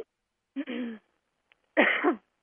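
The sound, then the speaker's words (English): Throat clearing and coughing from someone with an irritated throat: two rough, noisy bursts about a second apart, the second louder, with a tiny click between them and no talk. “I got some weird throat thing going on. I feel like coughing.”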